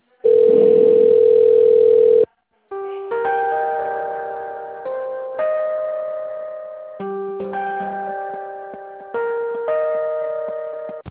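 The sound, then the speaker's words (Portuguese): A steady telephone line tone plays for about two seconds while a call is being transferred. After a short gap, a series of decaying electronic hold notes follows at a moderate level, with no talking. “Aguarde, estamos transferindo a sua ligação para um dos nossos consultores.”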